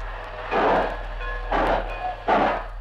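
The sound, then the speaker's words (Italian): A train departing in a 1955 archival recording, heard as three broad, rushing bursts that surge and fade over a steady low hum. “Attenti ragazzi, un treno in partenza.”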